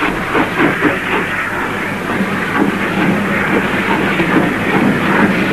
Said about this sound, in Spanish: Y el convoy inicia su marcha.